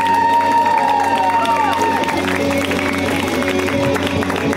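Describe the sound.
An audience at a comedy show applauds and cheers a comedian, a loud, continuous roar of clapping and shouts that holds steady throughout.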